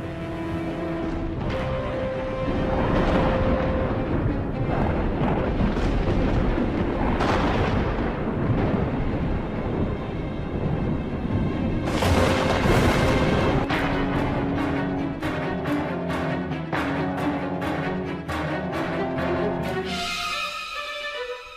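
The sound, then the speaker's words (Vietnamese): Thunder rumbling during a storm with lightning over an abandoned garden: a loud, continuous deep roar with heavy booms, later broken by a run of sharp repeated cracks. “mà ở trên bầu trời sấm chớp vẫn cứ đì đà đì đùng, những tia chớp cứ lập lả lập lòe rọi lên khu vườn hoang ấy.”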